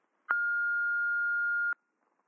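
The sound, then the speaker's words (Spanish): An answering machine beep before a message is left: one clean, steady high-pitched tone lasting about a second and a half, with soft clicks at its start and end, alone against silence. “Si quieres dejar un mensaje, una canción, un poema o lo que te dé la gana, espera después de la señal.”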